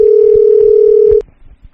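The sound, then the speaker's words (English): A telephone dial tone while calling a house phone: a loud, steady hum holds one pitch for about a second, then cuts off with a click, followed by faint low rustling. “Calling his house phone, by the way.”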